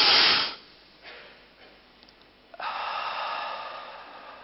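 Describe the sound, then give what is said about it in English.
A deep breath drawn in through the nose opens with a loud, brief rushing inhale, then near silence, then a soft, steady hiss that continues to the end. “take a deep breath in through your nose. Just hold it. Once again, in deep breath.”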